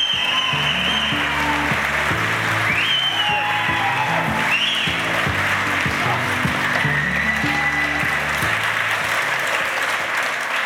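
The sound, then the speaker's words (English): Audience applause welcoming a speaker onto the stage: dense, steady clapping from a crowd that holds at an even, loud level for the whole stretch. “Ladies and gentlemen, please put your hands together and welcome Mr. Toby Young!”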